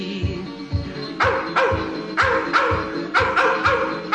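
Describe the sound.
Hounds baying and barking on a coon hunt in Kentucky: repeated sharp yips and barks ring out in irregular bursts over a steady, rhythmic music backing.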